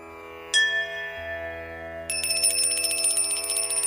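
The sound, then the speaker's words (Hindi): A hand bell rung during Hindu worship gives one bright metallic strike whose tone rings on. Rapid continuous ringing then follows, loud and clear, with no talk. “आगमार्थं तु देवानां गमनार्थं तु रक्षसां घंटानादं प्रकुर्वीत पश्चात् घंटां प्रपूजयेत्”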